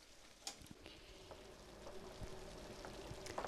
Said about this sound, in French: Et après, au même temps, on va mettre l'eau pour la pâte.